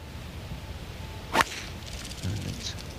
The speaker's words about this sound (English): A rather nice place to spend the afternoon watching great players drive, particularly when you can see, I was going to say, swings of that quality, but he hooked it into the crowd. He hit a spectator on the left and ricocheted towards disaster land.